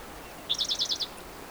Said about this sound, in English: I can't see the bird, so I don't know where he is.